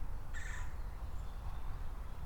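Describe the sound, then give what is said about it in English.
A single brief, harsh call from a bird overhead rises above a steady low background rumble. “We got a bird making noises above me.”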